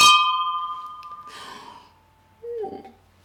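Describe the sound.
Glasses of sparkling wine clink together with a bright, ringing tone that slowly fades. A brief soft hiss and a short breathy sound follow.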